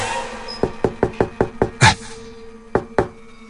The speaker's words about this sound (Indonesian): Ada yang mengetuk pintu kamarku. Dia langsung ngetok lah.